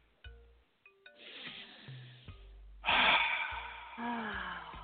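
A person takes a deep breath: airy inhaling and exhaling bursts set among brief tonal sounds.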